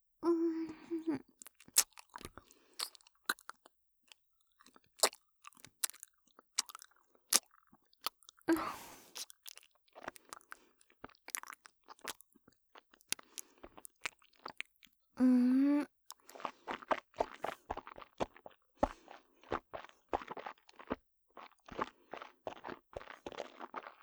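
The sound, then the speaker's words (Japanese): Faint, wet chewing of a last spoonful of rice porridge: many soft, irregular mouth clicks and smacks scattered throughout, all quiet and close. “ほら、最後に一口だけおかゆさんが残ってるから全部食べさせちゃうね。”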